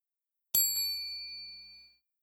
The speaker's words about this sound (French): Au son de la clochette,